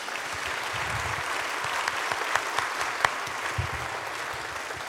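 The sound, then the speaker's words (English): An audience applauds to welcome a speaker onto a stage, a steady wash of many hands clapping throughout, with a few sharper individual claps standing out along the way. “Put your hands together. Let's welcome Lucy.”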